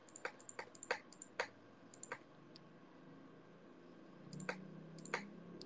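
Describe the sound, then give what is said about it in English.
Keystrokes on a computer keyboard: sparse, sharp clicks tapped irregularly, a cluster early on, a pause, then a few more near the end. The clicks are faint over a quiet, steady background hum. “You guys like my keyboard? It's cute, isn't it?”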